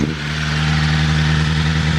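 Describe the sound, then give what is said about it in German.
A four-cylinder car engine of about 215 hp revs out of gear, holding a loud, steady, droning note with no talk over it. “Darf ich mal Gas geben? Selbstverständlich. Jetzt wird kleiner Jungentraum wahr. Gang rausmachen ist ganz wichtig.”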